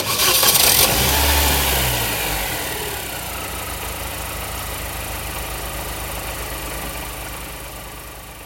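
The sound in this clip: A car engine cranks and catches with a loud burst at the start, then settles into a steady, rumbling idle that eases slightly in level over the following seconds, with no voices.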